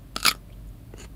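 A five-year-old boy crunches on a cucumber, giving a couple of crisp, juicy bites close together and then a fainter crunch. There is no talk.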